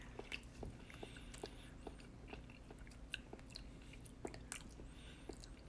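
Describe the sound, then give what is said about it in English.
Chewing on raw tuna sashimi eaten without rice: many soft, irregular wet clicks and smacks at a steady, quiet level, with no talking. “So let's try this tuna sashimi. Can't get it off. Let's see what this tastes like.”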